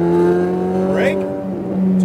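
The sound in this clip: A race car engine revs under throttle on a racetrack during a driving lesson. It is a loud, steady harmonic drone with a brief upward swoop in pitch partway through.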